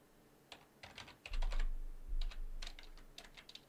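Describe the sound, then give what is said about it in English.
Typing on a computer keyboard: quick bursts of clicking keystrokes come in short clusters with brief pauses, fairly faint and with no voices. “I can type. I really can.”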